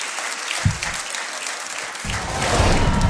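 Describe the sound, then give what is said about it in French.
Audience applause at an anniversary concert celebrating a radio station's ten years, a steady, dense patter of many hands clapping with no talk, growing slightly louder toward the end. “Applaudissements, s'il vous plaît.”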